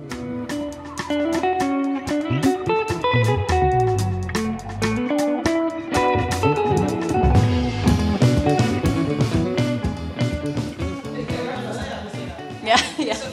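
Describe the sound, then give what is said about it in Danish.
Background music plays in a museum getting ready for a pre-opening party, a loud, continuous stretch of rhythmic, distorted music with dense beats and shifting chords. “Så hvis man kan høre noget musik i baggrunden, så er det så bare fordi, at de er ved at åbne.”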